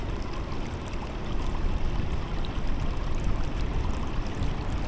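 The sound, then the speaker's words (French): Roar of a waterfall in Quebec dropping 83 metres into a huge basin, a dense, constant rushing wash of water, steady and loud with slight swells, and no voices. “son assourdissant de l'eau tombant de 83 mètres de haut dans un énorme bassin résonne dans vos oreilles.”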